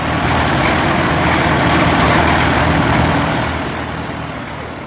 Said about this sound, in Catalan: el Mercedes del doctor Trueta travessà els Cinc d'Oros a tot gas i emprengué el camí de l'hospital.